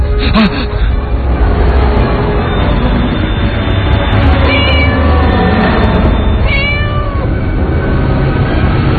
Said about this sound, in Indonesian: entah dari mana, di depan motorku aku melihat seekor kucing. Kucing ini terlihat tidak asing.